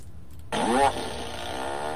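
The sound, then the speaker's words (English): A novelty fart machine goes off once, giving a short, loud, buzzy blast that fades into a low steady hum. “for the fart machine, but I found it. So, one more time.”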